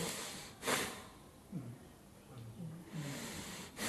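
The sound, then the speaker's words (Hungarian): A person imitating the slow breathing of a sleeper: two soft, airy breaths near the start and end, with a few quiet voiced sounds between them, faint overall. “bepróbál mutatni, nem tudom, mennyire hallatszik. Így lélegzik egy alvó ember, körülbelül?”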